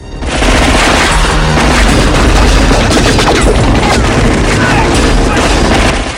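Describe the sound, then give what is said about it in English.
Machine gun fire in a motorbike chase as two bikes exchange shots on the road. Rapid, dense bursts run loud and nearly unbroken from start to finish. “Chance aims a machine gun and rises up in his seat.”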